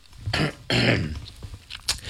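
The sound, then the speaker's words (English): A throat being cleared in two rough, raspy bursts close together, the second longer than the first, followed by fainter, scattered sounds. “not listen to me clear my throat”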